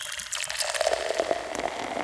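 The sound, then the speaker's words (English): Liquid pouring as tea is tipped into a jar holding rot: a steady, moderately loud stream of trickling and gurgling. “Now I'm pouring some tea on it.”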